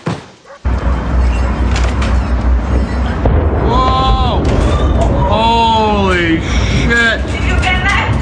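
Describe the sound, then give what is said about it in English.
A gas station explosion in China, played from a video, bursts in with a sudden loud roar that settles into a sustained heavy rumble, with excited voices shouting over it. “Let's just watch the explosion in China instead.”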